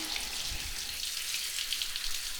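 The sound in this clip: Running water rinses someone's hair, a steady, even hiss of flowing water that holds at a constant level throughout with no pauses.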